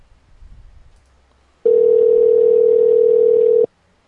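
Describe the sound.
A telephone dial tone sounds after the caller hangs up. After faint low noise, a loud, steady, unwavering tone holds for about two seconds and then cuts off abruptly.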